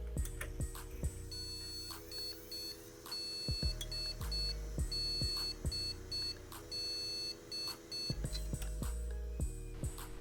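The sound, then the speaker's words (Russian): Computer BIOS beep codes sound as a PC fails at startup: many sharp electronic beeps in a repeating pattern, pairing high piercing tones with lower, longer tones, fairly loud with no talk. “Как позже я выяснил, это звуки биоса. Да, и звучали они примерно вот так вот.”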